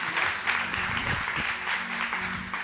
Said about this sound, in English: Right, church, give me a hand one more time as you welcome Gary this morning.